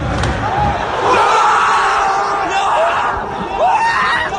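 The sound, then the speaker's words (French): A stadium crowd erupts for Paris Saint-Germain's first goal in the 53rd minute, a loud, sustained roar of screams and cheers that swells and surges. “gros moment de folie dans les tribunes à la 53e minute pour le premier but du Paris Saint-Germain.”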